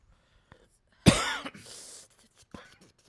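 A person coughs after inhaling spicy food during an eating challenge: one loud, raspy cough burst trails into a breathy wheeze, followed later by a faint short cough.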